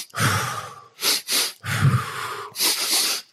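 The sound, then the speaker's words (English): Breathing exercise for anxiety: two quick, sharp sniffs in through the nose, then a long, loud whoosh out through the mouth. The pattern runs through two cycles, with no talking. “There's a good one where you inhale twice through your nose and out through your mouth. Do it a handful of times.”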